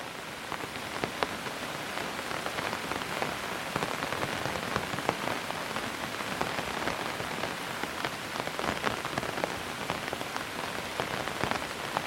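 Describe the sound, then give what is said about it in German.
Steady rain falls outside, a soft, distant, continuous patter of drops hitting a surface, even and unbroken with no voices. “Der Regen bleibt draußen, leise, fern”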